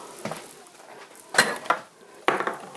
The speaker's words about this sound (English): Where might I find my favorite long-handled spoon? Oh, here it is. Okay, my favorite long-handled spoon.